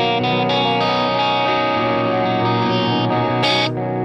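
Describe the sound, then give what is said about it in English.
A guitar delay pedal with the repeats turned up sits on the verge of self-oscillation. Sustained, distorted guitar tones smear into dense, degrading echoes that build continuously throughout. “What's funny is, like, with the repeats up, like, you can hear that it's trying almost to self-oscillate.”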